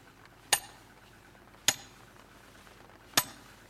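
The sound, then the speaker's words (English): Steel wedges are hammered into a stone block: three sharp, ringing metallic strikes spaced over a few seconds, each decaying quickly into a quiet background. “And as for Roger's block, well, he's been at it now for 3 days, and he's using modern steel wedges. Stand back.”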